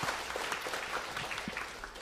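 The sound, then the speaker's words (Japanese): Applause from a church audience: a continuous, fairly faint patter of many hands clapping at an even level, with no voices over it. “もう一度兄弟姉妹方に大きな拍手をしたいと思います。”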